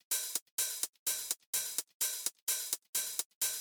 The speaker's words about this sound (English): the classic disco hi-hat pattern is probably something that you have heard before and we used on our disco song, and it sounds like this.